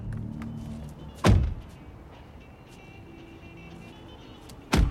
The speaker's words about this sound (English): The black sedan moves toward an exit. At a gas station, they get out.